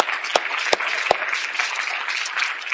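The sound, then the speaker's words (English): Audience applause welcoming a couple onto a stage: a steady, dense wash of clapping with a few sharper individual claps standing out. “Let's welcome them as they come. Let's give them a hand, okay?”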